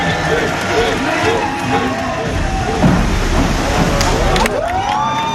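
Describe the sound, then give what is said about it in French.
Noisy spectators cheer at a diving competition by a pool: a dense, steady roar of many voices shouting and whooping, with a few sharper bursts near the end. “Et du plaisir, il en a donné aussi aux peu nombreux mais bruyants spectateurs.”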